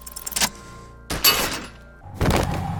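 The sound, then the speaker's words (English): A belt buckle in a video game is shot and shatters. Three loud, crunchy breaking bursts are separated by short gaps. “The buckle explodes into tiny pieces, coming loose with a whir.”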